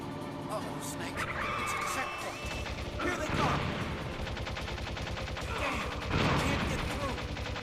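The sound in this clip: Gunfire from the video game Metal Gear Solid mixes with vehicle engine noise and skidding during an in-game chase. Clusters of sharp shots recur over a continuous roar, and people talk over the game sound.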